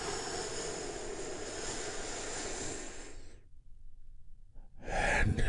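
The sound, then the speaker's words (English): A long, deep inhaled breath during a guided relaxation exercise: a steady, breathy hiss lasting a few seconds, then a brief silence before another breathy sound begins. “take another big, deep, healing breath with me right now. Here we go.”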